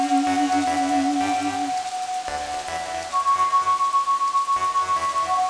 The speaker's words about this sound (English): Here comes a rain.